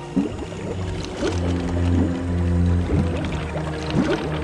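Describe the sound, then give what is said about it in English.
Continuous sloshing and gurgling of swamp water as a car sinks into it, a steady watery wash with a few bubbling surges, moderately loud. “he closes the door and pushes the car down an incline into the swamp water.”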